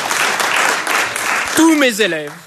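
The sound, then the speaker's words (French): Students in a classroom applaud their teacher with a brisk burst of dense clapping that fades after about a second and a half, as a man's voice begins speaking over the last scattered claps. “Tous mes élèves, et je sais que j'en ai dans la classe, s'ils pouvaient m'applaudir, ça me ferait plaisir.”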